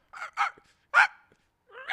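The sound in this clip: A person imitates a dog barking with a few short, yappy barks separated by brief gaps, the voice bright and fairly loud.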